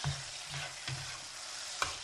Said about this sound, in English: I'm going to stir the peppers a little bit one more time before we add the eggs.